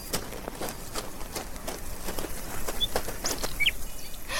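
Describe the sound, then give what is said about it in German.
A magpie's wings beat rapidly as it takes off, a run of soft, airy flaps repeating in quick succession at moderate loudness. “Sie verbuddelt die Erdnuss unter dem Baum und fliegt gleich wieder los, um sich noch mehr Nüsse zu holen.”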